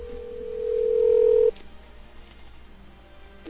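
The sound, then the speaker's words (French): A telephone call being placed: a single steady electronic tone swells in loudness for about a second and a half, then cuts off abruptly, leaving a quiet open line. “Donc on appelle le Renault.”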